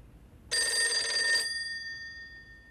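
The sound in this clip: A telephone rings in a hotel room: one bright electronic ring burst of about a second, followed by a lingering tone that fades out. No voices are heard.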